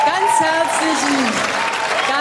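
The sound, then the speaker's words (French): Audience applause at a political gathering after election results are announced: a dense, steady clatter of clapping that holds at the same loudness for the whole stretch, with a voice heard over it. “Merci beaucoup pour vos applaudissements.”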